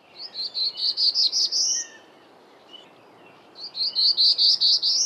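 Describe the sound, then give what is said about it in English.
Black-throated blue warbler song recorded in Plymouth County, Massachusetts: two phrases of high, buzzy notes, roughly seven or eight each, separated by a pause. Each phrase is clear and loud and climbs higher at its end. “That's the song of a black-throated blue warbler that was recorded in Plymouth County, Massachusetts.”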